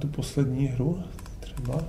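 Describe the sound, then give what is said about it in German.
Keyboard typing and mouse clicks at a computer as someone starts a game, a few sharp clicks scattered across the stretch, with a voice heard underneath. “setzt sich an seinen Computer und nach ein paar Klicks ist er mittendrin.”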